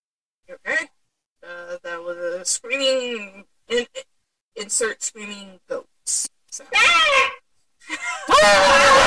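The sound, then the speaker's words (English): Screaming goats: many loud, strained, wavering bleats and yells in quick succession, ending in a harsh noisy burst. “Screaming goats.”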